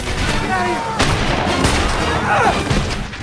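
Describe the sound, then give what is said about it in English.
Gunfire rings out in a gunfight as bandits shoot at guards and wagon drivers. A few sharp reports punch through a loud, dense, continuous rumble of noise. “The bandits use the dirt banks to their advantage, shooting the guards and drivers. Billy watches the gunfight with wide eyes.”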